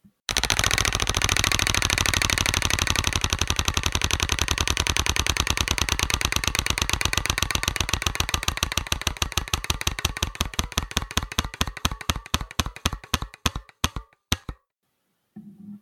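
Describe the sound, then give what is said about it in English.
A prize wheel in a roulette-style card game spins and ticks. Dense, rapid clicks run for about fourteen seconds, gradually slowing and spreading apart before they stop, followed by a faint trailing sound. “Let's go to the next card. I'm going to spin the wheel.”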